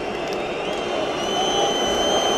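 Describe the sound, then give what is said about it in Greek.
A football stadium crowd shouts and cheers during a penalty shootout, a dense, steady, loud roar of many voices with no single caller standing out. “Ο Ράγια ζητά από το κοινό να φωνάξει περισσότερο σε αυτό τον χαμό τον οποίο γίνεται.”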